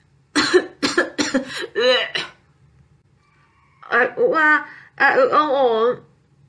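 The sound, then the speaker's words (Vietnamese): A voice acts out a coughing and retching fit as someone is jolted upright by a foul stench. A few quick, harsh coughs lead into a drawn-out gagging groan, then two longer, strained, voiced retches after a short pause. “Bạch Ngọc Đường lăn mình ngồi thẳng dậy, nôn ọe, ho khan một trận.”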